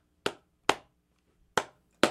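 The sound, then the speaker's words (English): Four sharp, isolated hand claps at a slow, uneven pace, each crisp and quickly fading. A single person makes them to imitate the impatient slow clapping of a crowd waiting for a show to begin. “You know, that ambiguous clap that we do when we want something to hurry up. Yeah, stomp and clap.”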